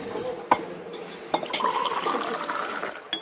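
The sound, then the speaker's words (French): Water spills aboard a ship, a brief pouring splash mixed with a few soft knocks, all fairly faint. “Oh, je suis maladroit. Excusez-moi. Non, c'est rien, ce n'est que de l'eau.”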